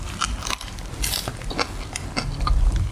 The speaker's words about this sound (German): So, schmeckt sehr lecker. Ja, sehr frisch. Vollkornbrot ist super, finde ich.